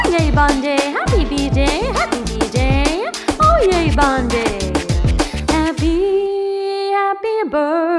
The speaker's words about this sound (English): My dog says woof woof to you